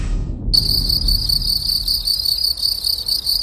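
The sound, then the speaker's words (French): A field cricket chirps in a rural setting, a steady high-pitched pulsing trill that starts abruptly after a brief quiet moment and carries on unbroken over a low background rumble. “Ambiance champêtre avec le grillon champêtre.”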